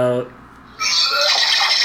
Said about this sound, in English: That's the sound of the fish being poured into Charlie's Porsche.